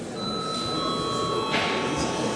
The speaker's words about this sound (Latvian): tad lūdzu zvanu